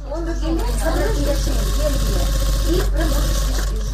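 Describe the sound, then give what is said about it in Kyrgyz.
A sewing machine runs continuously in a charity foundation office where cancer patients sew clothes. Its steady, even hum sits under a speaking voice. “Эргене коомдук фондунун кеңсесинде рак илдетине чалдыккан жарандар тынбай кийим тигип жатышат.”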